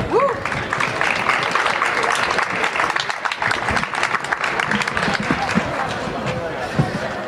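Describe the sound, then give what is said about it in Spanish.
Audience applause at a poetry and music recital: dense, steady clapping from many hands, sustained at an even level throughout. “Un aplauso muy fuerte.”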